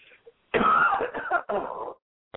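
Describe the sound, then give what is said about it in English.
Coughing and throat clearing from someone briefly interrupting a spoken talk: two rough, breathy bursts close together, preceded by a faint catch and ending with a tiny click, with no talk over them. “just a second, I got a cough”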